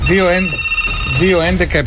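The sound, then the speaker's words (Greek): Telephone ringing loudly in two repeated warbling bursts, each about half a second, with a short gap between them. “Να σηκώσουμε το τηλέφωνο”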